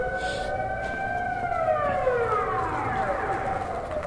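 A civil warning siren wails loudly during its routine noon test. Its steady tone then sweeps downward in pitch and is heard on its own, without voices.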